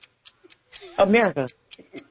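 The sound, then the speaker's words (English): A quiz game clock ticks in a steady, quick rhythm with light, sharp clicks, while a brief voice speaks over the middle of the sequence. “Start the clock.”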